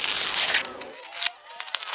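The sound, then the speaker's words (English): Tearing open a football sticker pack: a rough, papery rip at the start, then light crinkling and rustling of the torn wrapper. “The anticipation of ripping open a sticker pack, perhaps a glint of a coveted shiny”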